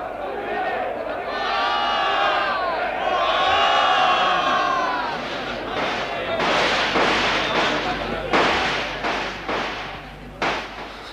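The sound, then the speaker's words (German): Gunfire and crowd uproar in a radio drama battle scene during a weavers' revolt: a dense, agitated crowd roar is joined in the second half by several sharp, loud gunshot cracks. “Die schießen wieder.”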